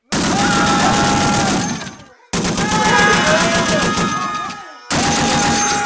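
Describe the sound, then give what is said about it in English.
Submachine gun with a hair trigger firing in rapid automatic bursts: three long, loud strings of shots with brief breaks between them. “you might want to point that submachine gun in the other direction. What? Oh, yeah. Good idea, given the hair trigger on this thing.”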